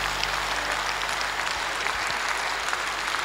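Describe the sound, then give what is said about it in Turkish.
Audience applause for a singer after a song performance, a dense, steady wash of many hands clapping that holds at an even, fairly loud level for the whole stretch, with no talk over it. “Alkışlarımız, alkışlarımız abiler.”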